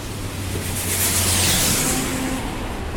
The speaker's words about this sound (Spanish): En general el tránsito en el centro de Santiago a esta hora, 7 y media de la tarde, no baja de los 68,